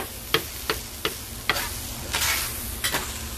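Already-cooked deli food sizzling as it reheats in a pan: a steady frying hiss broken by several sharp taps or scrapes of stirring at uneven intervals, with no voices.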